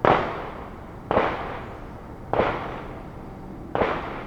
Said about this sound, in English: we're in Marietta Terrace, so we're literally like another fence line apart from us in the shooting range right now.